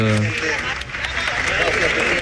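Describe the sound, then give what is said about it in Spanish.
Applause from people gathered in front of the altar inside a cathedral: a dense, steady wash of clapping with voices mixed in, holding at an even level throughout. “Y se escuchan aplausos de personas que están ahí.”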